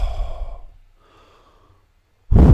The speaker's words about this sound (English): they'll step back to where they're going to jump from and they'll breathe out a couple times. They'll exhale.